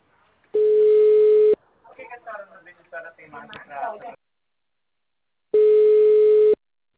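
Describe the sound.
Telephone busy-signal tones after a dropped call: two long, steady, loud beeps of identical pitch, each about a second long, with a person talking in the gap between them.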